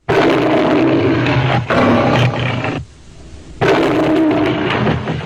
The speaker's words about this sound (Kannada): ಸಿಂಹದ ಗರ್ಜನೆಯಲ್ಲಿ ನಾವು ಇದುವರೆಗೂ ಗಮನಿಸದೇ ಇದ್ದ ಒಂದು ಅಂಶವೂ ಇದೆಯಂತೆ.